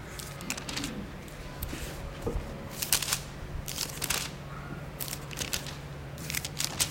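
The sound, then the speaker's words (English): Crisp rustling of thin Bible pages being turned, a series of quick papery flicks and crinkles that come in uneven bursts over a steady low hum. “That's the sound of a paper Bible, everybody.”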